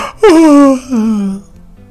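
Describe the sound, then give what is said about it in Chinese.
Voiced yawn performed by a voice for two story characters yawning late at night: a loud, drawn-out tone that falls in pitch, then a second, lower stretch before trailing off. “两个人打着哈欠”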